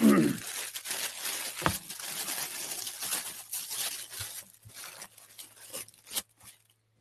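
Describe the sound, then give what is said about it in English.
Tissue paper from a package holding a shirt and fishing lures crinkles and rustles as it is handled, with sporadic soft crackles and tearing sounds across several seconds and a louder crinkle near the start. “But this is the tissue paper.”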